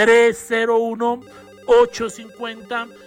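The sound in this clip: Telephone ringing with an incoming call, an electronic ringtone of short, clear melodic notes repeated in a pattern, with pauses between phrases.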